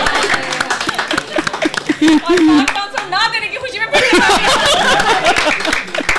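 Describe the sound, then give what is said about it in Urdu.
Audience clapping for themselves after playing well, a dense burst of applause that swells in the second half, mixed with laughter and voices talking over it. “آپ سب اپنے لیے بھی تالیاں بجائیں”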